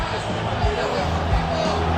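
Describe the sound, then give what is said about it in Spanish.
Deportivo de La Coruña supporters roar at the end of a football match, a dense, steady crowd din that holds at an even level with slight swells throughout. “Final, escuchamos al público gallego.”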